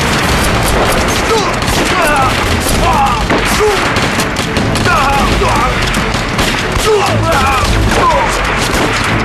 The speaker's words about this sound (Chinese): 再这么打下去，咱们子弹很快就打光了。 那就给我省着点打，接着打。